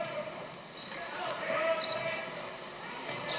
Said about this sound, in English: Leland takes the ball from him, dribbles.